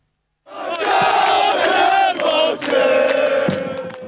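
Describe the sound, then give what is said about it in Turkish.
Fenerbahçe fans celebrate in the streets of Istanbul after a 1-0 UEFA Europa League semi-final first-leg win over Benfica. A dense crowd chants and shouts loudly, starting abruptly and holding for several seconds with only brief dips. “Fenerbahçe'nin UEFA Avrupa Ligi yarı final ilk maçında Benfica'yı 1-0 yenmesi taraftarı sokağa döktü. Kutlamalar başta İstanbul olmak üzere birçok ilde gece geç saatlere kadar devam etti.”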